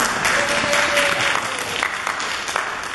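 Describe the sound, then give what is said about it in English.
Audience applause at a morning gathering: steady, dense clapping from many hands, fairly loud and continuous for about three seconds with no break. “Well, Marty, I even got your applause this morning.”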